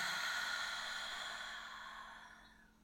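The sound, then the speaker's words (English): A deep, slow breath released during a guided relaxation: a soft, airy exhale that starts fairly strong and fades steadily to near silence, alone with no talk. “Let's take a nice deep breath in and release it.”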